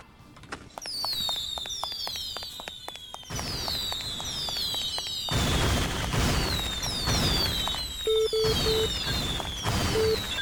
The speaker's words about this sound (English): So just wait until I only have bombs on the right.